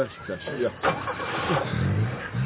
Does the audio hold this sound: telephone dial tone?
no